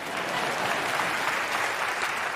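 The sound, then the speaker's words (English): Audience clapping, a dense, steady burst of applause that holds at an even loudness for a couple of seconds with no talking. “Oh, yeah, you can clap that.”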